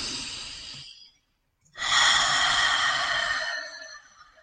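Slow, deep breathing during a guided breathing exercise. One airy breath tapers off, and after a short silence a longer, fuller breath follows and slowly fades, with no talk.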